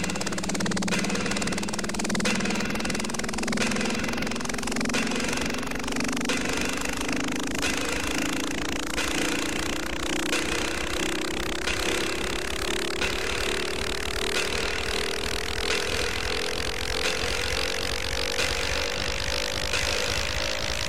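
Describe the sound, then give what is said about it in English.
An airplane engine before takeoff roars loudly and steadily, with a tonal whine slowly climbing in pitch over the whole stretch. “Attention, please. We're now ready for takeoff, so please fasten your seatbelt.”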